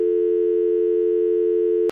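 Telephone tone after a call is cut off: a single steady, mid-pitched tone holds for about two seconds, then stops abruptly.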